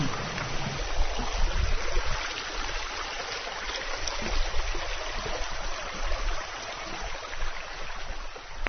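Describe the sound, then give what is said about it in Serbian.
A river flowing, heard while walking toward a village: a steady, full rushing of water that holds an even level throughout. “Čuješ kako reka, živode?”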